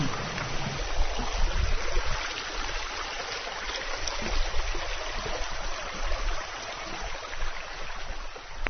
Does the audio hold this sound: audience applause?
no